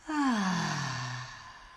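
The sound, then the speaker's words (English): A deep breath is released as a long, voiced sigh during a guided breathing exercise. It starts abruptly, slides downward in pitch, and fades gradually over nearly two seconds, heard alone. “Deep breath in and out.”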